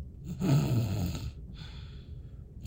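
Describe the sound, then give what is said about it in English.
A person imitates a quiet snore with two soft, breathy, drawn-out snoring breaths, low and rasping, separated by a short pause. “Steven said that I do a consistent snore, but it's a quiet one. It's like let me do it”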